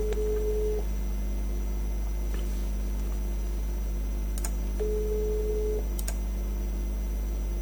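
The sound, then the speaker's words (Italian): Telephone ringback tone while an outgoing call is placed: two long beeps of a steady mid-pitched tone, about four seconds apart, over a low hum with a few faint clicks. “Chiaro, sto chiamando Casalena.”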